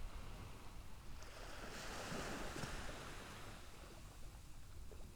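Ocean waves break against a beach in a soft, continuous wash of surf that swells and recedes. The sound is faint and steady, with no voices.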